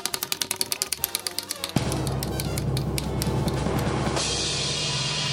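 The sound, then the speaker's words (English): A prize wheel spins, giving off a quick, even run of loud clicking ticks for the first couple of seconds. The ticking then carries on more faintly beneath a dense, louder wash of sound and voices. “It's time now to spin the wonderful wheel of Wednesday. What will happen now? Oh, my God. Around and round she goes. Where will it stop? Nobody knows.”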